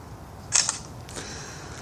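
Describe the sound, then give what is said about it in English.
A camera shutter clicks while a photo is taken of an LED bulb fitted in a car's rear light socket. A sharp double click is followed by a softer mechanical sound over faint background hiss. “I guess what I'll do is I'll take a picture of it without it being lit up, but just show what it looks like now that it's in the socket.”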